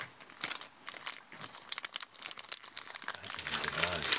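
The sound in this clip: A chocolate wrapper crinkles in many quick, sharp crackling bursts at a fairly low level, with a voice briefly heard near the end.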